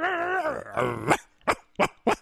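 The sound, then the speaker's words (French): A person's voice imitates a small dog, giving a wavering, throaty growl followed by three short, sharp yapping barks. “Moi aussi, je sais faire le chien.”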